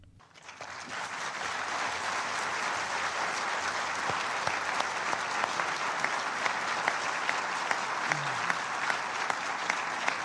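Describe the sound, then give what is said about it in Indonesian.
Applause from the 14 members of the UN Security Council after a resolution vote: a dense, steady roar of clapping that swells in the first second and holds evenly throughout. “Suara gemuruh tepukan tangan dari 14 anggota Dewan Keamanan PBB yang memberikan suaranya mendukung resolusi yang mendesak diakhirinya pemukiman Israel”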